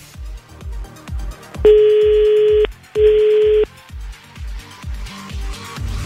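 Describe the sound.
Telephone ringing on an outgoing call during a call-in prize game: two steady electronic ring tones in close succession, loud over a rhythmic music bed with a regular thumping beat.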